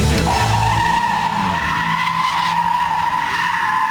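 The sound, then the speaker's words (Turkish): Loud tires squeal from a car drifting on a street in İzmir. The high, steady screech is sustained without a break, with engine roar beneath it. “Burası da İzmir Gazi Emir. Otomobiliyle drift atan sürücüye 146 bin lira para cezası kesildi.”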